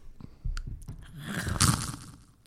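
Loud crunching as chips are bitten and chewed, with a few sharp, crackly bursts rising to the loudest crunch near the middle, then fading.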